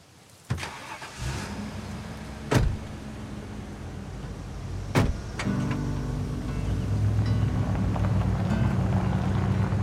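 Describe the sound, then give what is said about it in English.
A truck towing a trailer leaving a camp: a few sharp knocks and thuds, then an engine hum that grows steadily louder toward the end as the vehicle pulls away. “The truck and trailer drive away from the camp.”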